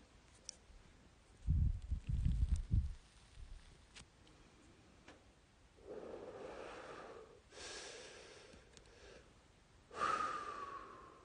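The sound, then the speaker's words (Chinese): Tobacco burning faintly alongside soft breathing. A low rumbling puff is followed by a few quiet, hissing breaths, with faint ticking crackles scattered throughout. “我听到烟丝燃烧的声音，好像也能听到你呼吸的声音。”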